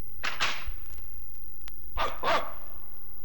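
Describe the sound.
A dog barks four times, in two pairs of short, sharp barks with a pause of over a second between the pairs.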